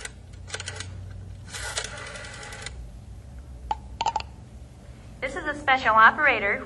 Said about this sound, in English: Operator, what number are you dialing, please?